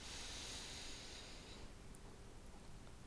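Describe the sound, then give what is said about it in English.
A slow, deep breath drawn in through the nose, a soft, airy hiss that holds steady for about a second and a half before easing into quieter breathy noise. “Another big deep breath in through your nose,”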